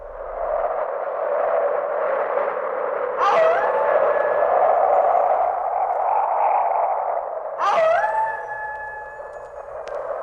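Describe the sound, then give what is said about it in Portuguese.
Wolves howl twice over the continuous roar of strong wind. Each howl is a long, sustained tonal cry that rises clearly above the steady gusting noise. “Aqui tamo eu e você no meio da ventania e dos lobos uivando.”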